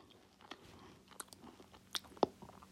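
Faint crunchy chewing on a Nutella treat with a hazelnut inside. A few sharp bites and crackles stand out over quieter, wet mastication, with no talking.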